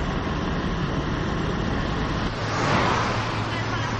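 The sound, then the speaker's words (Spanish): A taxi drives along, heard from the back seat as a continuous low engine and road rumble with a steady hiss that swells slightly near the end. “Más tarde, Lucía y Charlie están en el asiento de atrás de un taxi.”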